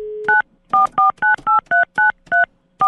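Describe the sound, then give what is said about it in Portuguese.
Telephone dialing: a short steady dial tone, then about nine quick touch-tone key beeps in a brisk, even rhythm, loud and clear. “Vou ligar pro padre.”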